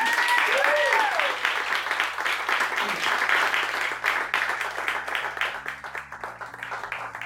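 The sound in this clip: Audience applause closes a live talk event: a dense, steady wash of clapping that holds strong for several seconds, then gradually thins and softens toward the end.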